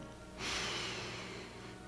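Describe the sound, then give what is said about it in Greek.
A deep breath drawn in during a calm guided breathing exercise: one long, soft airy inhale that starts abruptly and holds steady for about a second and a half, faint and alone with no talk. “πάμε πάρε μια βαθιά εισπνοή”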